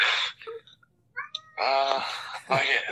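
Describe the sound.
A cat meows in agitation, with a few drawn-out, whining cries between stretches of a man speaking loudly.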